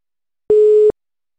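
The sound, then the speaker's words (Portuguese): Telephone tone sounding while a call is being placed: one steady, fairly loud electronic beep lasting under half a second, heard alone. “Vou ligar para a Gabi aqui também, tá? Só um momentinho.”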